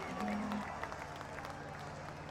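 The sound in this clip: Applause from a concert audience for the Doobies forms a faint, continuous wash of clapping and crowd noise, with a low hum running beneath it.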